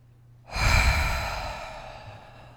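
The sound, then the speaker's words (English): A long, deep exhale empties the lungs during a breathing exercise. A single breathy rush starts abruptly and slowly tapers off over about two seconds. “And exhaling all that you can, all of the air out of your lungs.”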